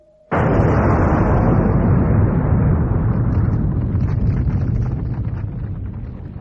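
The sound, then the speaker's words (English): An explosion blows apart a cathedral: a sudden, violent blast that erupts at once into a thick, roaring rumble, holding loud for several seconds before slowly fading. “The minute particles of pyre left behind from Nomad's experiments and detonated by Robin's telesending had blown the cathedral apart.”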